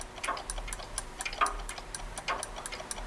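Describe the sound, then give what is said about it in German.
Steady ticking of a large clock: many crisp, evenly spaced ticks at a quick regular pace, fairly faint and alone, with no voices. “Nimm dir mal ein Beispiel an der großen Uhr. Da, an der da, schau. Na, was sagst du zu der?”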